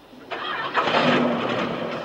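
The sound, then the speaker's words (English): A van engine starts up: a short burst of noise swells into a steady, broad running rumble that holds at an even level to the end, with no voices. “Sir, the engine will start now.”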